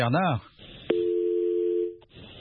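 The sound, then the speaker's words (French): A telephone line tone sounds while a call is placed to a caller: after a brief voice and a sharp click, a steady, even tone holds for about a second before stopping, followed by a short blip. “On va essayer de rejoindre Ibrahim Pogba Koivogi.”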